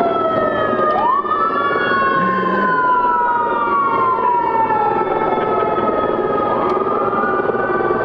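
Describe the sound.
A fire engine siren wails loudly and without a break, its tone climbing, then sliding slowly down before climbing again near the end.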